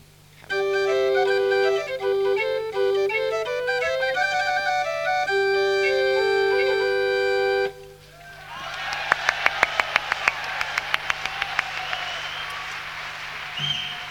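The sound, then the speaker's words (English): Small portative pipe organ playing a bright melody of stepping and sustained notes for about seven seconds, then stopping as a crowd breaks into applause with sharp claps. “So that is our portative organ.”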